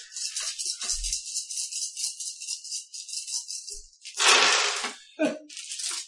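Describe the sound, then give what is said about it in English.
Nine dice are shaken and rolled for an opposed roll in a tabletop roleplaying game, making a faint, continuous high rattling clatter followed by a few sharper bursts of tumbling dice. “Roll those 9 dice.”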